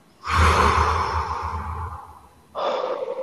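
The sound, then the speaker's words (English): A deep breath is drawn in through the nose and let out through the mouth: a long, airy, sighing breath, then after a short pause a second breath begins, with no talk. “Now, inhale through your nose and exhale through your mouth.”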